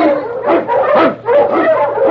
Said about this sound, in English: The Wonder Dog King, swiftest and strongest of Eskimo lead dogs, blazes the trail through storm and snow for Sergeant Preston as he meets the Challenge of the Yukon.